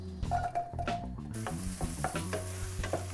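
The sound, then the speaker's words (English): Onion fries in hot oil with a steady sizzling hiss and some stirring. “Okay, so heat up the oil and then onion first before the garlic.”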